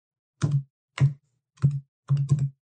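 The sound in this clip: Heavy keystrokes on a computer keyboard as a name is typed into a search box: a few separate taps about half a second apart, the last one doubled. No one talks.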